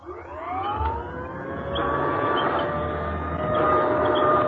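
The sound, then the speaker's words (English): An old-style vacuum sweeper running while standing still in one place: its motor whine climbs briefly at the start, then settles into a steady, even drone with layered harmonic tones over rushing noise. “Or this, the sweeper standing in place.”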